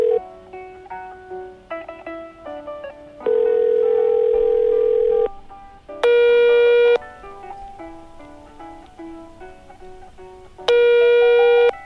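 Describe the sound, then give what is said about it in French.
Electronic telephone ringing: three loud, sustained, steady ring bursts over soft background music, with quieter gaps between them. “C'est Moussa qui m'appelle.”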